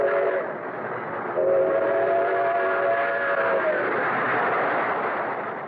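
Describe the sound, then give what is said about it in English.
Trains rush toward Grand Central Station along the Hudson River: a loud, continuous rumble with a sustained multi-tone whistle blowing for a few seconds midway, the rolling noise carrying on steadily before and after. “day and night, great trains rush toward the Hudson River”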